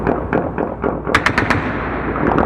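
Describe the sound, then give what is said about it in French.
Gunfire ringing out through Kabul at night: dense, rapid bursts of shots with a cluster of sharp cracks near the middle, over a continuous rumbling wash of distant firing. “Aussitôt la date de l'Aïd annoncée par les responsables talibans, des tirs ont commencé à déchirer la nuit dans Kaboul.”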